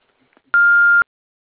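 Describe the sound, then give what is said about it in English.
An answering machine beeps after the outgoing greeting: a single steady, fairly high electronic tone lasting about half a second, loud and clear against silence. “We're not in the office right now, or we're on the phone at the tone. Please leave your name and number, and we'll get back to you as soon as possible.”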